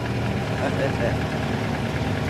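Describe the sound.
A car engine idles with a steady, low rumble and a faint vibrating texture that holds unchanged throughout.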